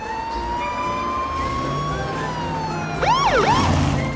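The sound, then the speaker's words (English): A sheriff's police car siren wails in over a steady low drone, its pitch sweeping up and down in loud, fast swoops near the end. “The sheriff turns on his siren”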